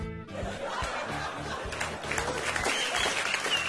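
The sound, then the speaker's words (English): A theatre audience at the Civic Theatre applauds and laughs at the end of a hilarious comedy set, with sustained dense clapping mixed with chuckles and scattered cheers throughout. “that for me was a memory of going to see Nick Rabinowitz at the Civic Theatre and the response of the audience at the end of his set”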